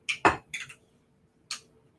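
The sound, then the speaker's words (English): A utensil scoops thick coconut butter out of a jar while baking scones, giving a few short, soft scraping and tapping sounds, with quiet gaps between them. “I'm gonna just scoop out like maybe, I don't know, half of this jar.”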